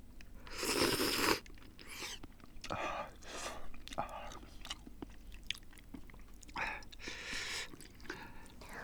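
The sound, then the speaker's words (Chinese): Someone eats freshly cooked hot noodles: wet bites and chewing with soft mouth noises, one louder burst at the start and quieter bursts after it. “慢点吃，别烫着，刚煮好的面可烫了。”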